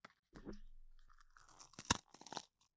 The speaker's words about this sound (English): Tell me what you think of this new grinder. So one of the things in here is not to overwhelm the grinder. But I'm going to give you guys this.